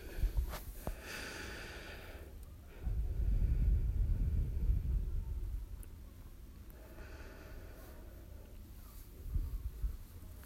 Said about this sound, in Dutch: Drie keer Lion's Breath.